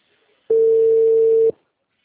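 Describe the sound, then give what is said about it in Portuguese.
A single steady telephone line tone sounds as a call is placed to a customer: one clean mid-pitched beep lasting about a second, alone, with near silence before and after. “Tô fazendo uma ligação pro outro cliente.”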